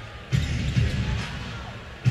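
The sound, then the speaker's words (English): A basketball is dribbled during an NBA game between the Toronto Raptors and Cleveland Cavaliers, giving a few dull, low thumps at irregular intervals over a steady background noise. “DeLon Wright up top on the bounce.”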